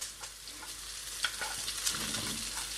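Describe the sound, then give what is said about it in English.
Scallions and green beans sizzle steadily in a hot frying pan as they are stirred, with a few soft scraping clicks from the stirring over the constant frying hiss, and no talk. “I am now going to add my scallions or spring onions and my green beans.”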